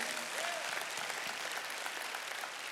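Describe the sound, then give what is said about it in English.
An audience applauds in a dense, even wash of many hands clapping, holding at a steady level from start to finish. “Now, for those of you that didn't clap just now, let me just say that the Bible is intellectually honest about resurrection talk.”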